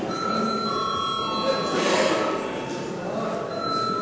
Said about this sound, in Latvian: Lūdzu zvanu.